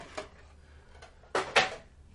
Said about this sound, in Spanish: Vale, cierro la caja de Pandora de color morada.